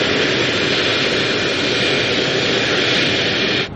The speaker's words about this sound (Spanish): Un jet sale de un hangar del aeropuerto.